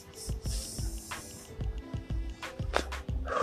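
Vape pen being inhaled from, giving a fairly quiet airy hiss mixed with repeated soft crackling pops at a regular pace.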